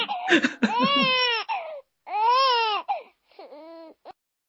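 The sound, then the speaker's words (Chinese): A baby cries in three separate wailing bursts, loud and high-pitched with a strained, tonal quality. The first burst is longer and choppy, followed by a steady wail, then a shorter, softer whimpering cry. “还记得以前你的哭哭啼啼的声音是这样的吗？”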